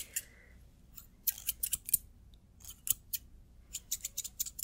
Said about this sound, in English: All right, I need to trim your beard hair.